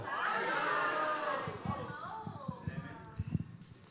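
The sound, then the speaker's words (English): An audience cheering and clapping to welcome guests onstage, excited crowd voices and shouts first, then scattered claps. “Everyone give them a round of applause.”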